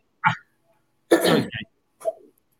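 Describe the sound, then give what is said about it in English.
A woman clears her throat in three short, rough bursts separated by brief silences, with the middle one longest and loudest. “Sorry, you were just clearing your throat.”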